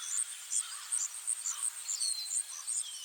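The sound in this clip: Forest birds calling at dawn, faint and high-pitched: many short chirps repeat in an uneven rhythm, with a few thin, sweeping whistles over a soft, steady hiss.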